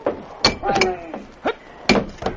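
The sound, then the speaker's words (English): An axe breaks a locked door lock with a few heavy, sharp thuds in an uneven rhythm. Some blows carry a brief metallic ring. “You're locked in. I'll have to break the lock. Let me get an axe.”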